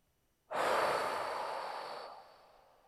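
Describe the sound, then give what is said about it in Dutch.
A single forceful exhalation through the mouth during a guided meditation breathing exercise: a long, breathy rush of air that starts abruptly, then slowly fades over about two seconds, with no talking. “Laatste keer in door je neus. Blaas met alles wat je hebt uit door je mond.”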